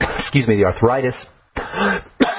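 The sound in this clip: Throat clearing by a speaker: a few rough, gruff voiced bursts, loud, separated by short pauses.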